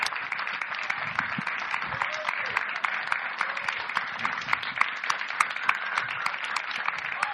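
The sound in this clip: An audience applauds after a live song: steady, dense clapping with scattered sharper claps continues at an even level throughout.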